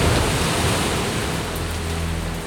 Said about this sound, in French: De grosses gouttes de pluie tambourinent sur le toit de l'arche. Les rivières débordent, la mer envahit la terre.